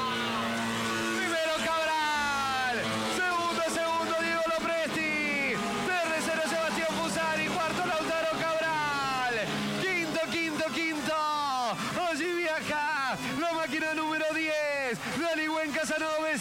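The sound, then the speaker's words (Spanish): Fiat 600 race cars accelerate at full throttle down a racetrack's main straight, their engines screaming upward in pitch again and again, with sharp drops at each gear change and overlapping revs from several cars, loud and continuous. “Van a acelerar a pleno aquí en la recta principal. Acelerador a fondo. ¡Escucha!”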